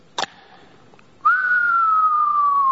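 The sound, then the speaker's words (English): A voice imitates the whistle of an incoming mortar shell in Iraq. A brief click comes first, then a single long, clear whistle that slowly falls in pitch. “Number one, it's called a mortar. So a mortar sounds like this.”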